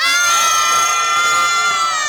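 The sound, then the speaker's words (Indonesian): A crowd cheers at a fashion show contest, a loud, sustained wall of high-pitched shouting and screaming that holds steady without a break. “Nah, kita ulang sekali lagi dari sorak-sorai. Yang paling gede langsung saya kasih kepada sebelah kanan dari Portugal.”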